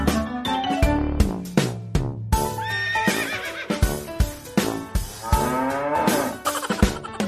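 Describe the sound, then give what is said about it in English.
Cattle on a farm mooing in several low, drawn-out calls, mixed with a horse's whinnying and some clip-clopping hooves, with no talk. “The cows on the farm say moo, moo, moo.”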